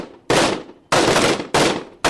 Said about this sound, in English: At some point in the night, the explosions and small arms fire began.